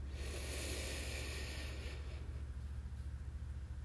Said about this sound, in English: And now let's inhale.